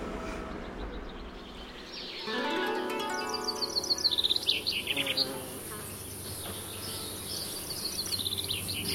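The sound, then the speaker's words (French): Cicadas buzz in a steady, high, shimmering drone under trees in a garden. Scattered bird chirps and twitters rise above the drone throughout. “je me mets dehors sur la table de jardin, là, en bois. J'adore, c'est très agréable, avec le bruit des cigales, sous les arbres”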